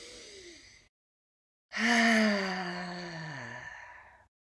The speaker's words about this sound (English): let's do one more breath, maybe with some sound this time.